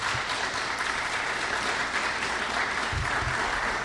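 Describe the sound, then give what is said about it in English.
Applause from a church audience at a Sunday morning service, a dense, steady clatter of many hands that holds at an even level from start to finish, with no voices on top. “will you please give a warm welcome to Nick Harris as he comes to preach the word.”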